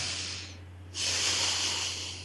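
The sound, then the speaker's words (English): A long, deep breath: a breathy hiss that dips briefly, then swells and holds steady, with a low constant hum underneath. “Take a nice breath.”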